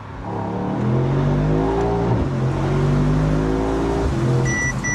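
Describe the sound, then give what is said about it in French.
A V8 car with a nine-speed multi-disc-clutch automatic, all-wheel drive and carbon-ceramic brakes accelerates hard. The loud engine note climbs steadily in pitch, drops sharply at a gearshift, climbs again and drops at a second shift near the end. “Oh là là là là, ça accélère très très fort, ça tient la route.”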